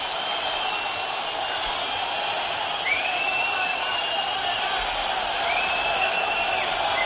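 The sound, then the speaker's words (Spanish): Football crowd at the Benito Villamarín stadium whistling and jeering its own team after a 0-1 home loss to Valladolid: a steady, loud crowd roar with a few shrill, rising whistles cutting through. “La bronca tremenda del Benito Villamarín, se levanta la gente, fuera, fuera. Vaya pitada al juego del equipo”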